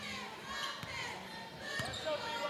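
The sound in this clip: Basketball dribbled on a court during a game: two distinct bounces, about a second apart, thud over a continuous noisy background wash.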